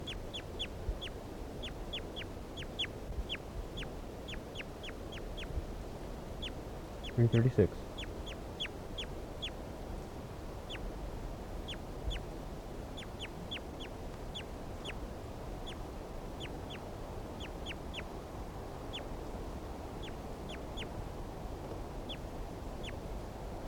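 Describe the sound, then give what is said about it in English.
Bird calls sound as many brief, high, sharp chirps repeated irregularly throughout, over a low steady background murmur, with one louder burst of calls near the middle. “This is bird 336.”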